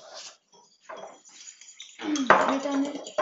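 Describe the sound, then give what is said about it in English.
Eggs are cracked into a bowl and mixed, with a few sparse clinks at first, then denser clattering and scraping of a utensil against the bowl that grows louder and more continuous. “Make sure you crack it into a bowl before you put it in the actual thing, so you can get the eggshells out and mix it up.”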